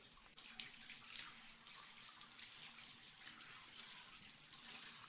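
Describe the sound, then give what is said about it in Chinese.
Shower water running in a bathroom: a steady, even hiss of spray that continues unbroken, faint and with no voices. “浴室门是透明的，我有什么办法？你好好洗澡。”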